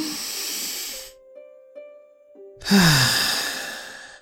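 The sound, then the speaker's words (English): A big, deep breath: a breathy rush of air, a pause with faint tones, then a longer, louder hissing breath that slowly fades out. “take a big deep of breath”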